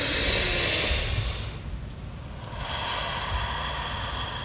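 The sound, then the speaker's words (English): People draw a deep breath in unison. A loud, airy rush of air lasts about a second, then fades into quieter, steady breathing, with no talk. “let's take one big breath together, I'd invite you.”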